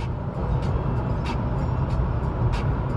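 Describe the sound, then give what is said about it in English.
Steady road noise from a car cruising at about 70 on a highway with cruise control set. A low, even rumble of tires and engine hums along without change, with no talk. “Got it on cruise control a little bit. I think this is the third time I made this drive.”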